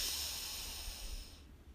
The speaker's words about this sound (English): Deep breath in, breathe in,